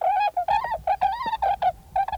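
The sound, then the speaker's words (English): Wintering swans calling: a rapid series of many short, nasal, bugling notes of similar pitch, repeated in quick bursts with brief gaps. “Trumpeter swans winter mostly in the Pacific Northwest, while tundra swans can be found along both coasts and at a variety of inland sites in the West.”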